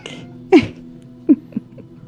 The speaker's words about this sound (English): The cat came up a little. Oh yep. Nice. That's my cat.